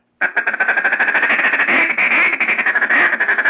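Duck call chuckle during a feed call: a fast, continuous rattle of short clipped notes blown on a call, loud and steady for about three seconds with no voices.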